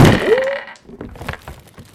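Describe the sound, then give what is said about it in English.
Heavy thud of giant walking trees striking the ground: one loud, booming impact at the start with a brief ringing tail, followed by quieter, scattered knocks that fade out. “Was there a big thud? There's a big thud because the trees are very large, and when they walk on the ground, they make big, big thud noise.”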